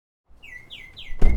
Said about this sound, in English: Ooh, is that a song thrush? Top of the line soundscape. We pump it through the whole facility